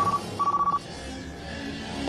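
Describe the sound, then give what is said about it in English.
A telephone ringing on a call: two short bursts of a warbling electronic ring tone, the second longer, followed by a steady low background hum with no voices. “Joe Biden was on the phone this weekend about this.”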